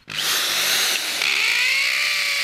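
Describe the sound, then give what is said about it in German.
A power drill drives screws into the crumbly stone of an old barn, giving a loud, steady high-pitched whine that runs without a break from start to end. “schraubt die letzten Schrauben in die bröckeligen Steine der alten Scheune am Konvikt in Prüm”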